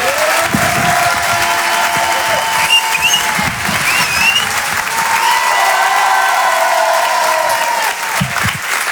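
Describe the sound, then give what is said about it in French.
Audience at a comedy club applauding a comedian as he is introduced, with dense, steady clapping throughout and occasional cheers rising above it. “Je vous demande de faire un maximum de bruit, un tonnerre d'applaudissements pour Monsieur Edgar Yves.”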